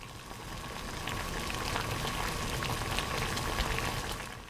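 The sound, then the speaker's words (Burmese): Water boiling in a cooking pot for mustard greens, a dense steady bubbling hiss that stays even from start to finish, with no talk. “ရေစူနေတဲ့ရေတွေကိုမုံညင်းရွက်တွေကိုထည့်လိုက်တဲ့အချိန်မှာအပူချင်းကနည်းနည်းကျသွားပါလိမ့်မယ်”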